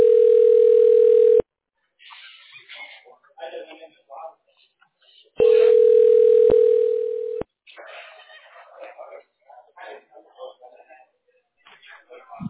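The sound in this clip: Outgoing-call ringback tone: two long, steady, mid-pitched tones of about two seconds each, separated by a pause of several seconds that holds quieter voices.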